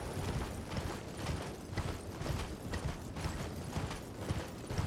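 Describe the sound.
Horse hooves clip-clop steadily while riding in a video game, a fast, even run of many muffled hoofbeats with faint mechanical creaks, and no talk over it.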